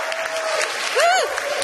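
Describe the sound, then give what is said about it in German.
Applause from the crowd at a literary reading stage in a courtyard, a steady wash of clapping with one brief swooping vocal whoop rising and falling over it midway. “Kann man mal Applaus machen?”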